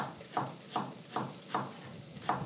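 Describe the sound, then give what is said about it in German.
A knife cuts leek on a cutting board for sweet potato and leek soup, giving five crisp, evenly spaced chops with a slightly longer pause before the last. “Schneiden wir mal ein bisschen weiter. So. Jetzt habe ich bald keinen Platz mehr vom Brett.”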